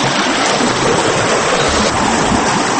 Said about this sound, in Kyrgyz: жерде Мирланбек акенин чыркбалеги тынбай дөңгөлөнө айланып жатты.